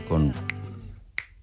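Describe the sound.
Finger snaps playing the African son clave rhythm: two crisp, sharp snaps spaced well apart, following a brief low voice at the start.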